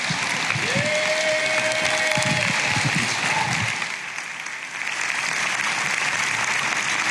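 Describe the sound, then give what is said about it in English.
Audience applause greets a pastor coming to the stage, a dense, sustained clapping that stays loud throughout, dipping briefly around the middle before picking back up. “I want you to stand to your feet. I want you to put your hands together. And would you welcome my friend, Pastor Ben Windle, as he comes to give her the word.”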